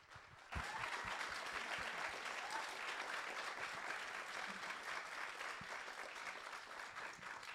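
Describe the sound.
Audience applause welcoming two visiting authors at a bookstore event in Harrisburg, starting abruptly and holding as a dense, steady patter for several seconds.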